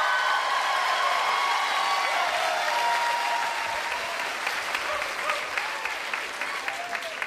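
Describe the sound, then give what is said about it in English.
Audience applause and cheering welcome author John Irving on stage, with loud, dense clapping and scattered whoops sustained throughout that thin slightly toward the end. “That rapturous reception you got coming out, is that typical for you?”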